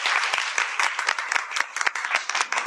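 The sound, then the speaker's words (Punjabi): Loud audience applause after a folk song performance: dense, fast clapping from many hands forms a continuous, crackling burst. It pulses slightly in intensity, with no voices standing out. “Thank you sir, ਬਹੁਤ ਅੱਛੇ, ਜ਼ੋਰਦਾਰ ਤਾੜੀਆਂ ਬਈ।”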